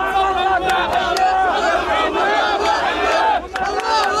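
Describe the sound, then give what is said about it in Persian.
Israelis cheering the release of hostages held by Hamas, with many voices shouting and yelling together in a loud, continuous, jubilant crowd roar. “شادی اسرائیلی ها به خاطر آزادی شماری از گروگان ها از دست حماس.”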